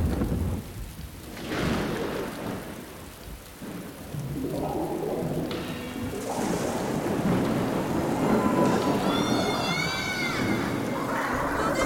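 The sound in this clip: Rain falls in a steady, dense hiss at night while thunder rolls in low rumbles that swell and thicken through the second half of the storm.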